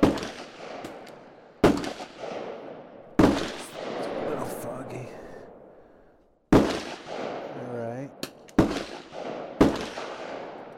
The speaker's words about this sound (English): On rifle and pistol line, you have a 15-minute firing period. You may commence firing.